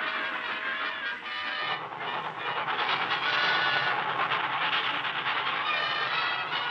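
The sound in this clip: A train passes with a steady, loud rumble and rattle of rail cars and wheels, growing a little denser and stronger after the first couple of seconds.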